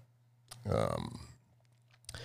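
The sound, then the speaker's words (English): Scissors snip with a few sharp, crisp clicks, and a louder rasping burst falls between them. The sound is fairly quiet overall. “Oh man, I recorded scissor sounds,”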